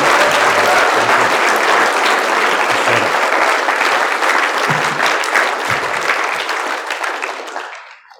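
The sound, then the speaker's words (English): A church audience applauds, a loud, dense wash of clapping hands that holds steady for several seconds before tapering off and fading out near the end. “if you're in Rushford, would you stand to your feet and do give these guys a big round of applause?”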